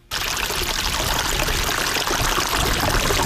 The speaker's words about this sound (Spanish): Estos son pequeños riachuelos que se forman según se van deshelando los glaciares